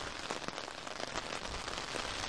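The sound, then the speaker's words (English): Wind-driven rain beats on an umbrella on open moorland: a dense, steady hiss of drops with scattered sharper taps, continuous and fairly loud throughout, with no voices. “I've also got my umbrella up, which I'm doing my best to point into the prevailing wind, which is lashing the rain across the moorland towards my face.”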